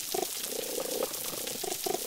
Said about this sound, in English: You can hear the fish communicating. You can hear the snapping shrimp.